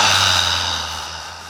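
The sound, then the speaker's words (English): A deep inhale during a guided breathing exercise: a long, steady, airy breath drawn in that slowly fades, over a faint, low, steady hum. “Okay, now three more together. Inhaling.”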